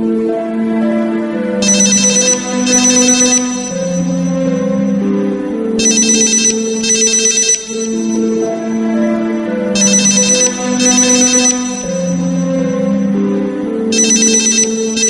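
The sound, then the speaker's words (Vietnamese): A mobile phone in a handbag rings with a song melody, a looping tune of shifting tones punctuated by four bright chiming bursts at regular intervals, loud and alone without any talk. “Máy di động đặt trong túi xách của Tiểu Mạn reo chuông.”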